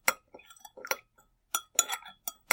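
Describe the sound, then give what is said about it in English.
A spoon stirring in a cup, heard as many bright, irregular metallic clinks and scrapes against the cup, fairly loud and alone, with brief silent gaps between bursts. “So that was the stirring. Well, it was okay, but it sounds like somebody's stirring to make a noise rather than anything else.”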